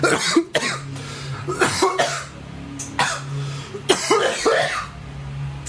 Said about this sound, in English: Yeah, that's a cast that would make me cough too.